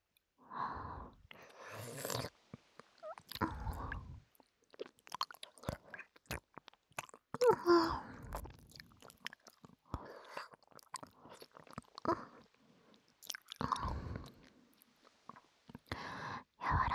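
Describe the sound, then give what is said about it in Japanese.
Chewing on soft daikon radish gives many small, quiet, moist crunches in irregular bursts, with short silent pauses between bites and no talking. “次は大根。柔らかすぎて音がしなさそう。”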